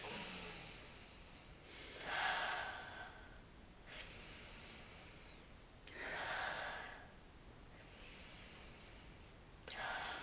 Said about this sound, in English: Let's roll it back. Get three breaths. We need these.